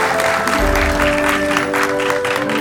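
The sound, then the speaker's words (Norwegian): Steady, loud applause from an audience thanking two guests at a Norwegian industry event, a dense, even wash of clapping with sustained musical tones running beneath it. “En ordentlig applaus, folkens.”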